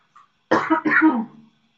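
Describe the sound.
Throat clearing with a cough, one short rough burst of about a second made of two quick pulses, heard on its own after a faint brief sound.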